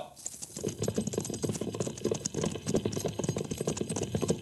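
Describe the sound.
Hooves of a cavalry squad's horses trotting in a column of fours, a dense, steady clip-clop of many overlapping hoofbeats that continues evenly throughout with no voices.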